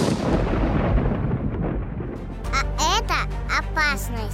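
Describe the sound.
Loud, low rolling rumble of thunder in a thunderstorm lasts about two seconds, then gives way to a child speaking.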